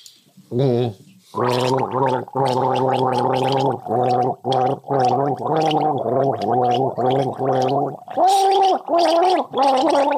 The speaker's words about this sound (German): Und dann legst du den Kopf in den Nacken und versuchst ein populäres Lied zu gurgeln.